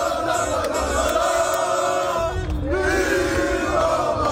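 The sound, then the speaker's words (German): A public viewing crowd in Düsseldorf celebrates Morocco's World Cup win with a dense, continuous roar of noise and sustained droning tones that briefly dip before swelling again. “Was ihr gerade hört, das war ein Public Viewing in Düsseldorf nach dem letzten Sieg von Marokko.”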